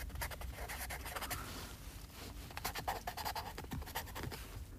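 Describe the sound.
Handwriting strokes scratch across paper in quick, uneven bursts, a dry rasp that keeps going steadily and fairly loud without any voices.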